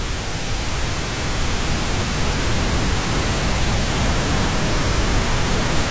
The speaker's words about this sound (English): It's very like white noise now. I will say all of these are quite similar. There's violet noise, grey noise.